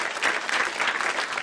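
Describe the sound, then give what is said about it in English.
Audience clapping at Model Off 2014, an Excel financial modelling championship: a short burst of dense, steady applause at moderate volume. “That is the sound of nerds clapping. Give it up for Model Off 2014, basically like the world championships of building financial models in Excel.”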